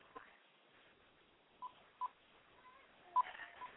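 A few faint, brief telephone keypad tones sound as a house phone is dialed, separated by irregular pauses over a quiet hiss.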